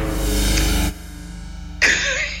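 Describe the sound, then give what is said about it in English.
Two snorts: first a loud, low, buzzy snort lasting nearly a second, then after a short pause a sharper, breathier burst that trails off. “Oh, we got a snort. Yes. And another one.”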